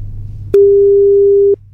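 Ringing tone of an outgoing telephone call, heard as one steady, even-pitched tone lasting about a second over a low background hum.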